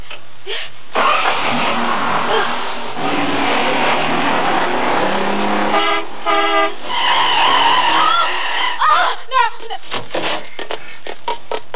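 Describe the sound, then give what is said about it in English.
A car engine starts and the car drives off, heard as a steady, fairly loud engine roar that runs through the whole scene, with brief tonal bursts in the middle and clattering near the end. “Start the car”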